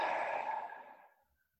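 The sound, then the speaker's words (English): A long, deep breath, loud and breathy at the start and steadily fading to silence over about a second and a half, heard alone without talking. “And then just taking a beautiful deep breath in. And breath out.”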